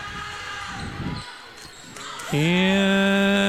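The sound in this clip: A volleyball serve is struck in a gym during a tight match, with ball impacts over a noisy background. A loud, sustained horn-like tone then starts abruptly and holds.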